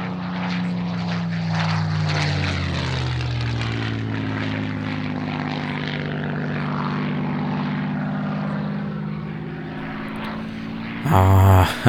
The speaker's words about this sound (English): Well, what a sound of Merlin.